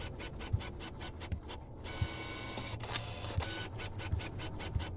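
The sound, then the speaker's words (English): A printer runs at night in a home office with a mechanical whir and regular clicks and short ticking strokes. It keeps a steady, moderately loud pace with no voices. “wake in the night to the sound of the printer in the home office”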